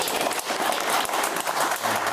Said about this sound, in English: A polite clap.